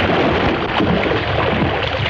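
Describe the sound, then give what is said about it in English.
Water splashing as someone swims, heard as a dense, continuous rushing wash at an even loudness throughout, with no separate splashes standing out and no voices. “Stop it, you're splashing! Come on, you swim enough.”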